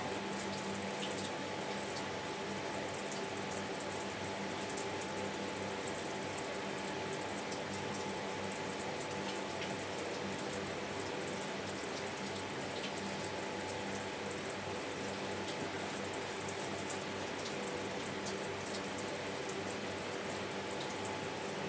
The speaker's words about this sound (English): first thing you do is you wet your face and wash your hair and all the other bits